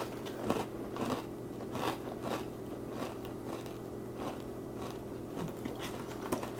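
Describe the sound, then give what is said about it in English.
Faint, steady crunching as someone chews a Fruit Loops-flavoured snack that may be slightly stale, with many soft, rhythmic bites repeating at a regular pace. “Does it taste like Fruit Loops? Yes, it tastes exactly like Fruit Loops. Might be a little stale, but...”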